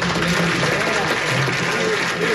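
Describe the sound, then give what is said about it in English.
An audience at a town hall meeting applauds, a loud, dense, continuous wash of many hands clapping that holds steady throughout. “And then he asks everybody to applaud for those people.”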